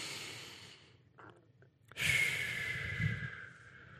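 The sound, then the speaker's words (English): A deep inhale taken during a guided breathing exercise, heard as a soft, breathy rush. It swells suddenly after a quiet moment, holds for about a second and a half, then eases off. “So let's take a breath. Deep breath in.”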